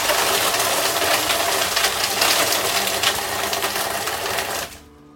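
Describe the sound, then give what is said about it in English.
A blender whirs through a mocha frappe, giving a loud, steady, buzzing motor roar for nearly five seconds before it cuts off abruptly. A faint tail follows, and no one speaks. “Next, we put it all in a blender and we blend it. Because that's what blenders do.”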